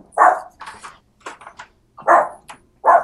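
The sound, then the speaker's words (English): A dog barking: three loud, sharp barks, with softer yips and whimpers in between, in an uneven rhythm. “Sorry, my dog is going crazy.”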